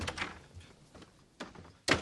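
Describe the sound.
A door opens with a few dull knocks and rattles, the last one the loudest, with no talk over it.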